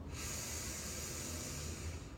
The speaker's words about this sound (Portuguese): Respira fundo, amiga, pelo nariz. Solta pela boca. Inspira pelo nariz.